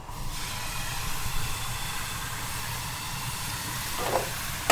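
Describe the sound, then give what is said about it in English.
Breton galette batter sizzles in a hot pan with a steady, broad hiss that holds at a moderate level for several seconds, alone without talk. “So my pan is nice and hot now, which means it's really sticking properly everywhere.”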